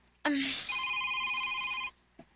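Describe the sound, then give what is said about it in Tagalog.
A cellphone rings in one sustained electronic burst of steady, bright tones lasting about one and a half seconds, then cuts off, followed by a brief faint sound. “Oh, imong cellphone, niring.”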